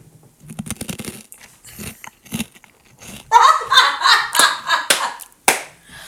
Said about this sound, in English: I'm eating hot Cheetos.